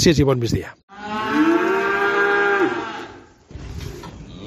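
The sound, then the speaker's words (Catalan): A cow at the Pifarré livestock farm in Herrera, Catalonia, lets out one long, loud, low moo after a brief moment of speech, followed by a quieter stretch of farm noise. “Doncs amb el bram de les vaques de la granja Pifarré,”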